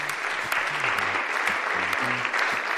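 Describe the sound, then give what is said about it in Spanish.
A crowd applauds strongly at an event where a football cup draw is taking place. The dense, even clapping runs the whole time, with a faint voice and some low musical tones under it. “Fuerte aplauso, por favor, para Antonio”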